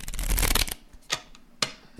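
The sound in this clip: A deck of playing cards is shuffled in a quick, loud riffle, followed by two softer taps of the cards.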